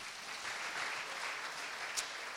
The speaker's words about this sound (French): Et on peut même applaudir les mamans aujourd'hui.